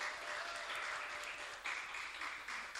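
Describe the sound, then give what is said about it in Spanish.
Applause from an audience at a community cultural evening honoring local women. The clapping is dense and steady throughout, with a brief louder swell partway through. “así que le queríamos dar un aplauso a ambas por ese apoyo constante en realidad.”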